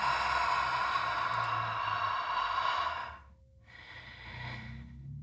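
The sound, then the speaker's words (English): A deep breath drawn in through the nose during a guided meditation session, a long airy inhale followed after a short pause by a softer, slower exhale, heard alone without talk. “Taking in a big deep breath in through the nose. Exhale, let it all go.”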